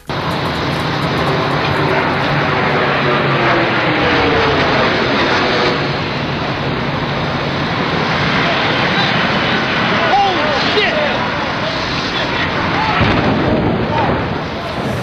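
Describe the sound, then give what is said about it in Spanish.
Roaring jet airliner striking the first of the two towers during the September 11 attacks: a loud, dense, steady rumble that fills the whole clip without easing, with people's voices mixed in. “Este es el sonido del momento del impacto del avión contra la primera torre, de las dos que finalmente cayeron.”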